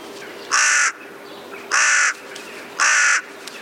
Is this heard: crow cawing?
yes

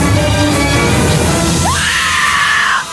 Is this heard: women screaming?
yes

